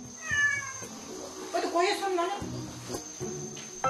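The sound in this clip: A cat meows, drawn by the smell of pork belly grilling at a neighbourhood meat party; a few short, high, wavering meows come through over a bed of voices.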